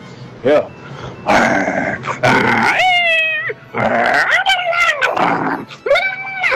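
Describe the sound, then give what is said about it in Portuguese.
A person's voice imitates a dog and a cat fighting, mixing growls with drawn-out, wavering meow-like yowls in rapid, loud alternation. “Eu consigo imitar um cachorro e um gato brigando,”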